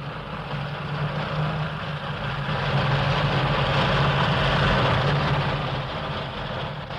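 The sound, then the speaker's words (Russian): A heavy tank engine roars steadily as the tank drives up a slope toward a hilltop, swelling louder midway through and then easing slightly, a dense low rumble with no voices. “Танк помчался на склон.”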